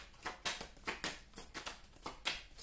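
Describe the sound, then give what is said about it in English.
Tarot cards being shuffled and drawn, heard as a quick run of papery riffles and soft slaps that repeats in a loose, steady rhythm at low volume. “I want to take another card. May I have another card, please?”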